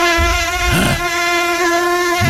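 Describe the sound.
Mosquitoes buzzing around the head in hot summer weather: a loud, continuous, high-pitched whine with a steady tone and rich overtones, lasting throughout.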